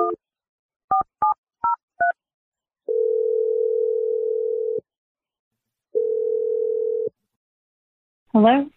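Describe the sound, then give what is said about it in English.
Telephone keypad tones as a call is dialed: five short beeps in an uneven rhythm, then two long steady ringing tones separated by silence, and a brief voice at the very end. “I'm going to dial Stephanie's number, and let's see what she has to say”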